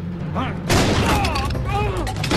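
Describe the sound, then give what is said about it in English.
Gunfire in a film shootout as characters trade shots while fleeing a house. A sudden loud blast cuts in after a short stretch of voices, then dense noise follows with voices continuing over it. “Sam shoots Naples. Run! Run! Run! Run! Sam trades shots with Naples' accomplice as he, Karen, and Tammy flee out of the house.”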